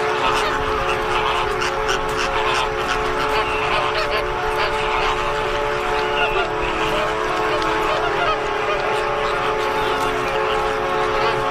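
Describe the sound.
Caribbean flamingos calling at their nesting site, a dense, continuous chorus of many goose-like honks overlapping at a steady, loud level throughout.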